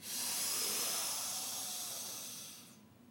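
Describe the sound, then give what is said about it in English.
A long, forceful breath pushed out through the mouth during a nose-in, mouth-out breathing exercise. A single steady, airy hiss lasts almost three seconds, then stops abruptly. No one speaks. “Exhale, mouth. In through the nose.”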